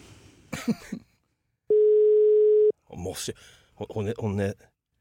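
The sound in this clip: A telephone ringing tone on a call sounds once as a single steady, mid-pitched tone about a second long, with people talking just before and after it.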